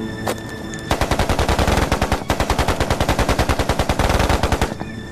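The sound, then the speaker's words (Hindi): Machine-gun fire during a firefight with soldiers and grenades: loud, rapid, evenly spaced shots in long sustained bursts with a brief break midway, and no voices. “बहुत होशियारी से यहां firing करो, करो।”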